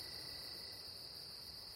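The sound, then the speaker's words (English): Insects chirping at night, likely crickets: a steady, high, shimmering chorus that runs without a break through the whole stretch, with no voices over it. “What are these bugs, these creatures, these insects?”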